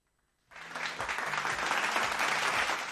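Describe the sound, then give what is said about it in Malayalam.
Applause for two singers starts abruptly after half a second of near silence. A dense, even patter of many hands then rises slightly and holds steady to the end. “രണ്ടുപേർക്കും നല്ലൊരു കൈയടി ഞാൻ അങ്ങോട്ട് തരാണ്.”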